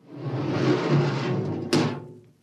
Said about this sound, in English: Open the airlock.